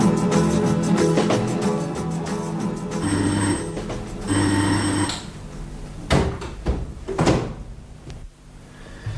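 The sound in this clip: A bell rung aboard a train to summon the conductor, two bright ringing bursts in quick succession, followed by a run of clattering, knocking sounds.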